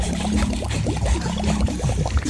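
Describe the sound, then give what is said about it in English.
Water pours and gushes into a flooding building, a loud, steady rushing and splashing that runs without a break for the whole stretch. “Floor by floor, the building filled up with water.”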